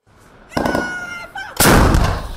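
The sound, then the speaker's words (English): Artillery shells fired by Taiwanese soldiers during a military exercise: two booming blasts, the second heavier and more sustained, each with a rumbling tail. “Taiwanese soldiers fire artillery shells at a target representing advancing enemy forces.”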